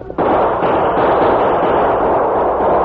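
Gunfire from a shootout between outlaws and defenders at a pass bursts in abruptly and keeps going as a loud, dense, continuous barrage of overlapping shots with no pause.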